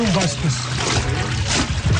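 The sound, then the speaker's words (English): Liquid pours and sloshes as tannery workers soak goat, sheep, alligator and snake leather in a mixture of ash, salt and dung, a continuous splashing wash with people talking. “Sounds of workers soaking the leather in a liquid mixture of ash, sodium chloride, and dung fill the neighborhood.”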